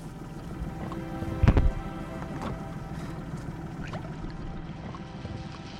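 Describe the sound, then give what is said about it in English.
Boat speeding through water, heard as a low, steady engine drone with a faint hum, broken early on by one brief, louder burst. “Michelle's boat speeds through the water.”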